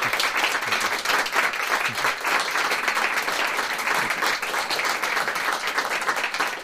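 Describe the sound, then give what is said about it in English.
Audience applause after a live music performance: sustained, dense clapping from many hands that holds at a steady level throughout. “I know our audience has been dying to give you a big hand, so let's go ahead and thank you very much.”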